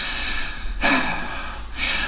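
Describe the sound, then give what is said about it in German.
Heavy, exhausted breathing: two deep, loud breaths spaced about a second apart over a quiet background. “Ich atme schwer. Fast ist es ein Erschöpfungszustand, aber beglückend.”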